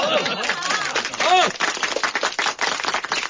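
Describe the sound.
Applause from gathered comrades at a wedding celebration, a fairly loud, continuous patter of clapping that carries through the whole moment with voices heard over its start.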